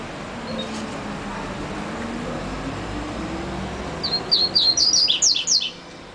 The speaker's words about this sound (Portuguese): O filhote, o coleiro.